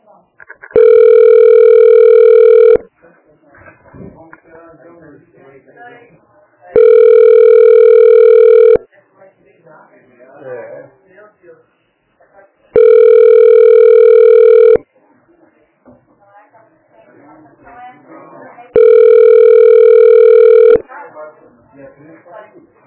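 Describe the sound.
Telephone ringback tone sounds four times while a call is being transferred, each a long, even electronic burst at regular intervals, with faint voices and rustling heard in the gaps.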